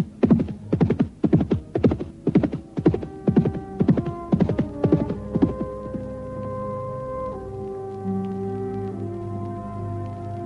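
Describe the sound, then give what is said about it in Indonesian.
Horse hoofbeats as a rider gallops home pound in quick, rhythmic bursts for about six seconds, then give way to a steady low hum that carries on alone. “sebelum kemudian melompat ke atas kuda dan pulang ke rumahnya.”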